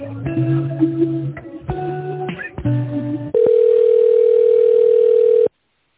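Telephone line tones play while a business call is transferred to a finance director: a few broken bursts of layered tones, then one steady, loud, unbroken tone held for about two seconds before it cuts off into silence.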